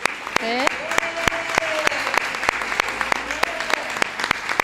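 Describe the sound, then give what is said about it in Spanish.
Audience applause for a regional government department team at an official public event. Dense, steady clapping with sharp individual claps standing out, and a voice speaking over it. “Así que yo creo que eso merece un buen aplauso para José López y para todo el equipo de la consejería”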